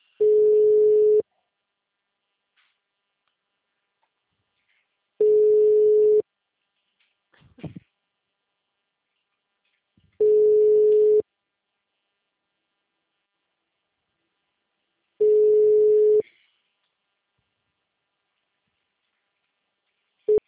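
A telephone ringback tone for an unanswered call: four long, steady, mid-pitched tones of about a second each, evenly spaced by several seconds of silence, with a faint brief noise in one gap.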